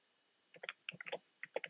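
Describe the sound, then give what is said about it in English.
Fake keyboard typing played by an automated phone system: quick, irregular clusters of clicky keystrokes, faint and thin-sounding, separated by short pauses after a moment of silence. “Fake typing.”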